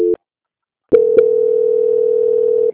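A telephone call being transferred: one short beep, a pause, then a click and a steady, continuous phone tone held to the end.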